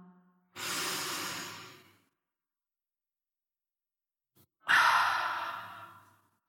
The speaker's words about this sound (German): einatmen durch die Nase, Luft anhalten und ausatmen durch den Mund mit Ah.